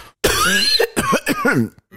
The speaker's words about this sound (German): ich werde keinen Huster oder irgendwas rausschneiden, einfach um ein bisschen Mitleid zu erregen